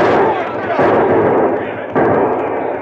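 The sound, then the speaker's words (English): Gunfire in a Western chase scene with horsemen: a few heavy, booming shots over a continuous rough rumble, each sharp onset standing out loudly. “Those fellas shoot mighty poor.”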